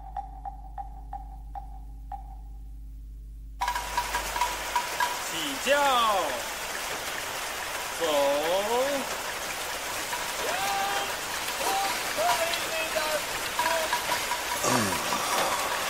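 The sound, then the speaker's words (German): Cool raindrops fall in a steady, even patter that begins a few seconds in. A few whistled, rising and falling chirps sound over the rain. “streckte seine Hand aus, damit er die kühlen Regentropfen spüren konnte”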